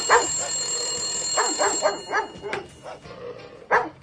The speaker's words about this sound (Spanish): ¿Y por qué suena el teléfono y vos estás hablando?